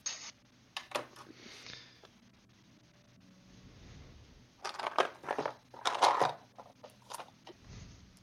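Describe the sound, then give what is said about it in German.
A die being unwrapped from crinkly packaging gives off bursts of crackling, crumpling plastic. Scattered crinkles at first, then louder, denser clusters of rustling follow after a quieter stretch. “Da verpacke ich jetzt einmal einen Würfel aus.”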